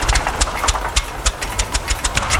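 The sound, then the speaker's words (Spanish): A boat engine runs roughly with one of its engines broken, giving many uneven knocking clatters over a low rumble in an irregular, stuttering rhythm without any voices. “Tu bote está matándome. El motor número uno está inservible.”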